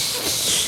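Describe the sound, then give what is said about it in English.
A voice imitates an anaconda's hiss with one steady, breathy, fairly loud hiss that fills the whole brief moment without pause. “So would you demonstrate to the listeners what an anaconda sounds like?”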